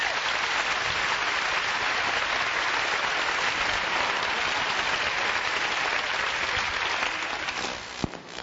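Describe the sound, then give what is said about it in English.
An audience applauds the sound crew at a gathering with dense, steady clapping that holds for several seconds and then thins out toward the end. “The sound men, John Horton and his group, let's give them a hand.”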